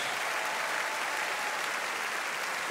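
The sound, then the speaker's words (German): Steady audience applause greets a German show jumper and his Westphalian stallion at the Aachen equestrian event, an even wash of clapping that holds fairly softly throughout. “Sie hören die großen Sympathien, die ihm jetzt hier in Form des Applauses schon entgegengebracht werden”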